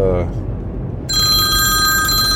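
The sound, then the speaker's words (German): Telephone bell ringing: a loud, steady electronic ring with bright layered tones that starts just over a second in and runs to the end, after a brief voice and murmur at the start. “oh, jetzt ruft die Frau zwischendurch an”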